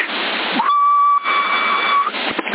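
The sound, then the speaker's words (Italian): A person whistles over a CB radio link on 27 MHz: one mid-pitched tone, slightly wavering as it starts, then held fairly steady for about a second and a half, riding on loud, constant radio hiss. “guarda se fischio. Non riesco a farlo fisso il fischio però.”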